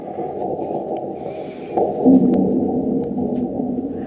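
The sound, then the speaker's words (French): A sonified recording from the InSight mission seismometer of ground vibrations after a meteorite impact: a low, moaning, whale-like rumble that drones steadily and swells briefly louder just past the middle. “C'est un enregistrement des vibrations du sol faites par le sismomètre de la mission d'InSight après un impact de météorite. Et cet enregistrement a été sonifié”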